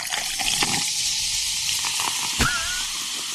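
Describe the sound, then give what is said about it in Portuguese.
Cheap champagne being opened and poured, foaming heavily: a steady fizzing, gushing hiss runs throughout, with a brief sharp transient and a thin whistling tone late on. “Vou abrir uma champanhe aqui, tá bom? Bora! Deixa eu abrir aqui.”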